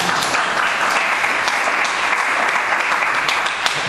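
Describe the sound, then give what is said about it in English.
An audience gives applause to a musician who has just finished his doctorate at Juilliard; sustained, even clapping continues throughout and eases a little at the very end. “Congrats, give him a hand.”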